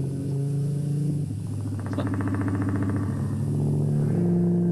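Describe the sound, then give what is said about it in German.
A motorcycle engine revs in a continuous throaty rumble, its note surging partway through and then settling back into a steady, loud drone. “das ist jetzt Motorrad. Das hört sich wie ein Motorrad an, ne? Das ist auch ein Motorrad.”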